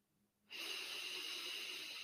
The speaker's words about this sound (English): And I really want you to focus on your breath, breathing in